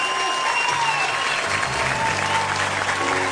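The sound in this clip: An audience bursts into dense, steady applause with cheering, the clapping holding at an even, loud level throughout.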